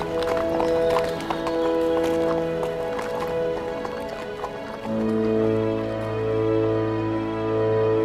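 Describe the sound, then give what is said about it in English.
Hooves of horses ridden along a trade road with a group of travellers clip-clop in a steady rhythm over sustained background music. The clops are most distinct in the first half. “Colin has joined the party, and you guys saddle up and with your ragtag group of refugees, continue up the tradeway towards Daggerford”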